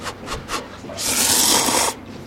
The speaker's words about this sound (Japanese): ラーメンを食う時の皆さん覚えてますか、ワンストロークですすり切るんですよ。